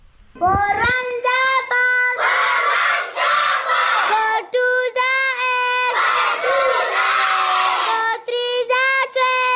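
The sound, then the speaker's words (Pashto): Students shouting together, a loud chorus of young voices chanting rhythmic phrases in repeated bursts with brief pauses between them. “تفصیل د مشال ریډیو خبريال شانواز سرګزی راکوي چې د زده کوونکو په اوازونو پیلېږي.”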